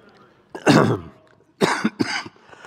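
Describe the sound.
Coughing and throat clearing from a Bible teacher partway through a lesson on 2 Chronicles: a few rough, broad bursts, first one long harsh cough, then after a pause two quicker coughs close together.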